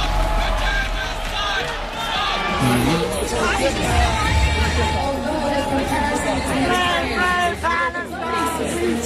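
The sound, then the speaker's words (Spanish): An audience makes noise at the start of Israel's performance at the Eurovision Song Contest: a loud, continuous mass of crowd shouting and babble with cheer-like swells that lasts throughout. “Este es el sonido que se escuchaba desde el público al comienzo de la actuación de Israel, mientras personal de seguridad trataba de acallarlo.”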